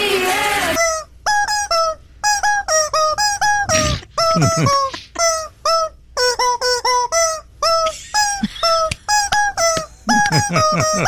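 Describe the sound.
Squeaking rubber-chicken honks pitched into a song melody as a remix: bright, loud squawks in quick rhythmic phrases separated by short gaps.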